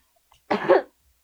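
A single cough made off microphone, one short, rough burst lasting under half a second and standing alone in near silence.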